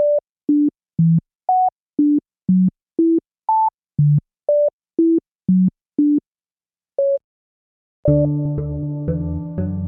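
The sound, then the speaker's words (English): A scrambled Yankee Doodle melody in pure electronic tones, each note leaping between octaves, played as over a dozen short, evenly timed beeps. After a brief gap, a fuller, denser sustained passage takes over. “It's Yankee Doodle. And a lot of times when people go back and listen to the scrambled version, they can hear Yankee Doodle in there.”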